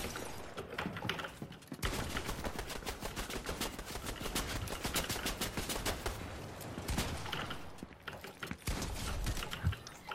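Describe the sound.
Gunfire in the video game The Pit: rapid, loud bursts of shots crackle almost nonstop, broken by two short pauses before the firing resumes.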